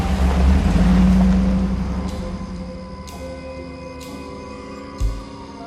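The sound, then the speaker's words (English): A car engine pulling away, a loud low rumble that swells during the first second and then fades steadily to a faint hum, with a brief low thump near the end. “Joe watches him drive off.”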